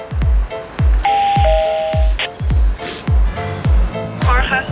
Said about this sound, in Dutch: We moeten aanbellen bij een aantal mensen.